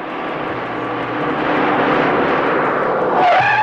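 A car drives off in an animated cartoon as its engine sounds a broad, rushing roar. The roar grows louder over the first second or two, then holds steady and strong.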